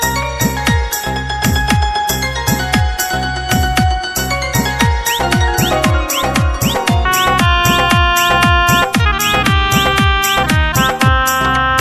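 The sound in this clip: A phone ringtone plays a loud, bright electronic melody of many rapid, evenly spaced chiming notes that repeat in a steady pattern without pause.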